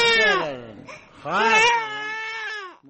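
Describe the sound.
A baby cries in two long, loud, high-pitched wails, with a brief dip between them.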